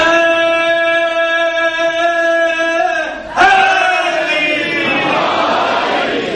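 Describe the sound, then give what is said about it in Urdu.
Naara-e-Haidari chant at a religious gathering: one voice holds a long, sustained call with a steady pitch, then a crowd bursts in with a loud collective shout that carries on to the end. “مجھے واہ کی جگہ اگر نعرہ حیدری کہہ دے اس کا زیادہ ثواب ہوتا ہے۔”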